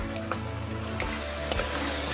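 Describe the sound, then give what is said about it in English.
Meat searing and sizzling in a pot of pepper pot stew while it is stirred, a continuous hissing fry with a few soft knocks from the stirring, over a low hum. “I'm just gonna give this a mix. We want to sear the meat and let the flavors develop.”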